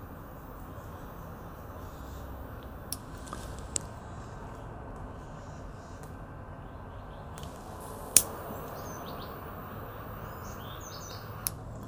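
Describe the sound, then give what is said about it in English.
A few sharp, faint clicks from a 20-year-old lighter being struck to light a Cuban Bolivar Belicoso Fino cigar on a patio, scattered over a steady background hiss, not every strike catching. “I've had this for like 20 years, this lighter. Right. Still works like magic. Not on every click, but pretty damn good. Just get it going, right?”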